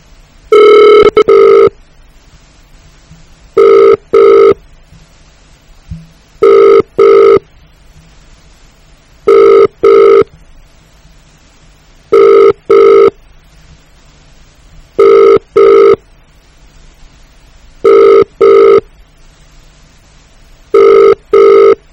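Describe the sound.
A telephone rings in eight double-burst rings at an even pace, each pair of bright electronic trills followed by a pause of near silence.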